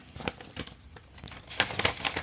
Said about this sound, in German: Machen wir den Umschlag auf hier.